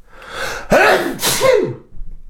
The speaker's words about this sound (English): I sped through the back end of that link because I knew I had a sneeze coming.